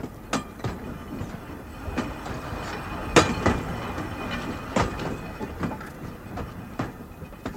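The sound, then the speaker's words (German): A coal train rolls past a level crossing, its wheels knocking over rail joints in a loose run of sharp clacks above a steady rumble, with no voices. “Und nun geht die Schranke runter. Sie versperrt uns den Weg. Man sieht den Zug nicht. Noch deckt ihn die Kurve. Aber jetzt.”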